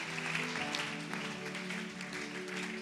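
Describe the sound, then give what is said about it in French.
Congregation applauding in a church, a steady, continuous wash of clapping held at an even level over a sustained low tone throughout. “Je veux que tu acclames Dieu encore pour leur vie.”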